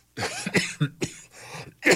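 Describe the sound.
A person coughs a few times, harsh throaty bursts separated by short pauses, with some throat clearing mixed in and no speech.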